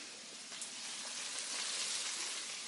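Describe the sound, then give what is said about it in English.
Mushrooms and kale sizzling in a buttered pan: a steady, bright, crackling hiss that holds even and continuous throughout, with no talk. “I'm going to see how the kale is wilting. So the mushrooms are cooking nicely. And I'm just going to add the tomatoes.”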